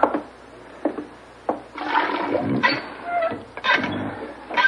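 Hand water pump by a sink being primed: a few creaking strokes of the handle, then water gushing and splashing out in uneven surges that carry on to the end.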